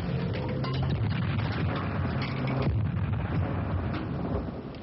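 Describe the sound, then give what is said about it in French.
A boss blows up in a video game: a dense, sustained roar of explosion noise that holds fairly steady for several seconds and eases off slightly at the end. “C'est le patron qui explose.”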